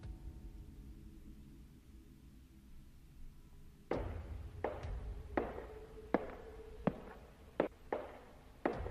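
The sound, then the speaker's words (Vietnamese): Footsteps approaching in a tense, dramatized scene. A few seconds of low, steady hum come first, then several sharp tapping steps land about a second apart, some of them louder than others. “Tiếng bước chân càng lúc càng gần.”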